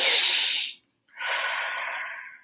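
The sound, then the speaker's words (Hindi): Deep, slow breathing during a guided relaxation exercise: two long, airy breaths, each drawn out for about a second, separated by a brief silent pause, with no talk over them. “Deep आपको breathe करनी है यहाँ पे आपको deep breathing करते हुए आपको तीन बार इनहेल”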